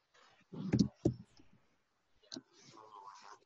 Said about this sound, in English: I can type a response for you.